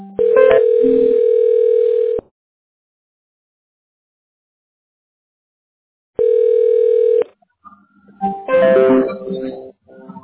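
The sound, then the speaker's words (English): Electronic ringing of an incoming phone call through Google Voice: two steady ringing tones, the first about two seconds long and the second shorter, separated by a long silent gap and followed by a brief stretch of voice-like sound. “Google Voice will try to connect you. Okay, I'm getting a call.”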